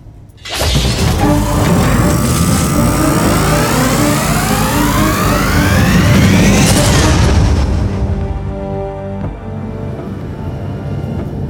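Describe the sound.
A science-fiction tube vehicle launches and accelerates with a loud, sustained roaring rush threaded with rising whining tones, holding steady before easing somewhat toward the end.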